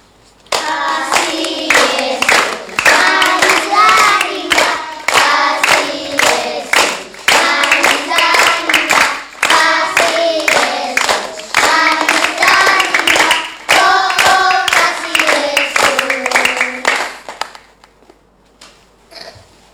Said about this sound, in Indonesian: mari kita menyanyi bersama lagu Kasih Yesus Manis dan Indah sambil bertepuk tangan.